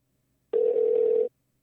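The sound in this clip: A single steady telephone tone sounds as a phone call is placed. It is a clean mid-pitched beep lasting under a second, heard alone against silence.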